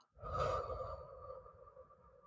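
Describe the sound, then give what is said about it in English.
A single slow breath, drawn in through the nose and released through the mouth as part of a calming breathing exercise. The breath is soft and faint and heard alone, with no talk. “Let's just breathe right real quick, you know, to get us all on the same page right now. So in through the nose, out through the mouth.”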